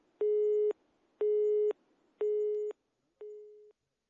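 Telephone busy signal after a number is dialed: four evenly spaced, steady mid-pitched beeps with pauses between them, the last one noticeably weaker.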